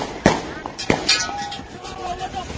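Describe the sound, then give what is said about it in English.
Gunshots ring out amid a tense street confrontation: two loud, sharp cracks about half a second apart, surrounded by excited voices talking over the commotion. “Ooh, we got gun, baby. Ooh, they shooting. Ooh, he shot him.”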